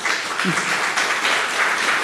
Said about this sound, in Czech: Radost, která je vtěsnaná i do vašeho potlesku.